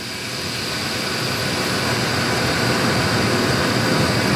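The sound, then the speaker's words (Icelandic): A centrifuge at a brewery separating cloudy beer into clear beer: a loud, steady machine roar with a faint high whine, swelling slightly over its length. “við keyrum hann í gegnum skilvindu”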